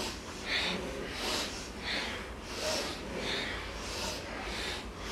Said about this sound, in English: Now we're gonna add some breath in. So we're gonna inhale left, exhale right, and we're gonna flow with it.